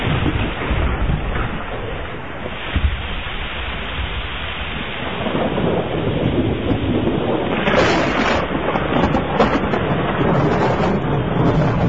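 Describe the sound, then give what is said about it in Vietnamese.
Light rain begins falling with thunder, an unusual late-season shower: a steady hiss of rain with low rumbling thunder beneath, swelling a little louder in the second half. “Chuyển mây đen kịt và mưa lác đác đổ hột.”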